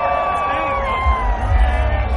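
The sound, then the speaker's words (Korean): Cheering fans at a Capitals championship parade on the National Mall as the players' double-decker bus passes: sustained shouts and whoops rise from a large crowd, with a low rumbling swell partway through. “선수들을 태운 2층 버스가 지나가자 환호성을 지르기도 했죠.”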